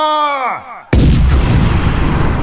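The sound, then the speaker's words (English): A cartoon big atomic missile mortar grenade is fired: a falling whistle tone drops in pitch, then cuts into a loud explosive blast that rumbles on steadily. “It's time to bring out the big guns. Fire the big atomic missile mortar grenade. Fire!”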